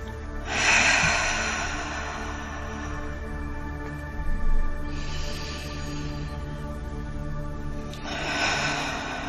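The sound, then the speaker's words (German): Three slow, deep breaths are drawn during a calm relaxation exercise. Each is a soft, airy rush of about a second, spaced apart, over a faint steady tone. “Dein Körper nimmt jetzt 2, 3 tiefe Atemzüge.”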